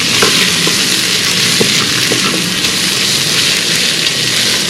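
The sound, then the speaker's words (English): Chopped onion hisses and sizzles in hot spices inside an Instant Pot as it is stirred. A loud, continuous frying crackle runs throughout, with faint scraping from the stirring. “let that start to sizzle and get the nice aroma of those spices before we add in the chopped onion. Chopped onion is gonna go in and we're gonna give that a nice stir.”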